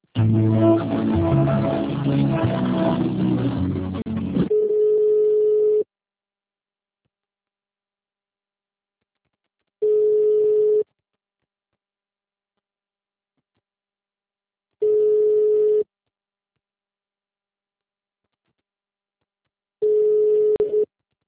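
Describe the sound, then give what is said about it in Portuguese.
Telephone line tones during a call transfer: about four seconds of dense sound give way to a steady mid-pitched tone, then three more one-second tones repeat about every five seconds with silence between. “departamentos ou aguarde para ser atendido. Transferindo ligação.”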